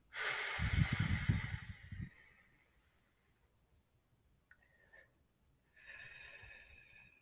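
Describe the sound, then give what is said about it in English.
A slow exhale through the mouth during a guided breathing exercise: a breathy rushing hiss lasting about two seconds, followed by near quiet with faint high tones. “Hold the breath for seven. Exhale through the mouth for eight.”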